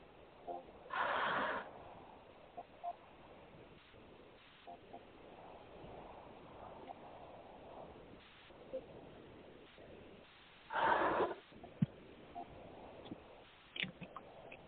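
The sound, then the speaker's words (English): Deep breaths during guided relaxation: two long, noisy breath bursts about ten seconds apart, separated by faint, steady background hiss. “This next breath is again to relax the mind. Take a deep breath with me in five, four, three, two, one.”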